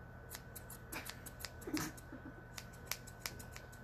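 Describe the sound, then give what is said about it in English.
Scissors cutting hair in an ASMR-style haircut, with many quick, faint metallic snips at an irregular rhythm over quiet background hiss. Nobody speaks. “I'm cutting your hair.”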